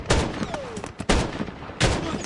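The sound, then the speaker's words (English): Gunfire crackles in a video game firefight, with a few loud bursts of rapid shots and smaller scattered shots between them. “You're still getting shot at, too.”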